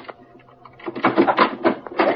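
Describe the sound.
A key working the lock of a locked laboratory door: a few soft clicks give way to a run of louder metallic rattles and clacks, each short and sharp, with no talk.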